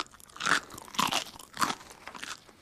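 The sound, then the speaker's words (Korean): Crisp crunching as someone chews a raw onion. A few loud bites and chews come in separate bursts, with a softer one near the end, and no talking. “집어온 양파를 씹기도 했습니다. 음, 어떡하지? 아, 지금 다 먹어버릴까? 아니면 남겨놨다 나중에 또 먹을까? 에 뭐야, 일단 먹자.”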